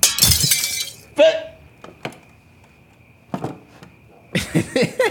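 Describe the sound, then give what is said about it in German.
Window glass smashed in: a loud shattering crash, then another burst of breaking and scattered sharp clinks and knocks, with people talking around the impacts. “Ich schlag das Fenster ein, das hörst du.”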